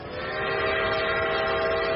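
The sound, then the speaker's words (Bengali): A harsh train whistle sounds in one sustained, buzzing blast that swells over the first half second, then holds steady at full strength above a low railway rumble. “সেই মুহূর্তে ট্রেনের কর্কশ হুইসেলটা শোনা যায়।”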